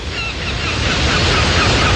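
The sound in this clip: Sea waves washing onto a sandy beach, a steady, loud rushing surf with an even hiss and no voices.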